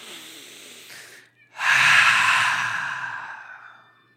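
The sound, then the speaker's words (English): A big deep breath: a faint, short inhale, then a brief pause and a long, loud, airy exhale that slowly fades, with no talk. “That was a good big deep breath, wasn't it?”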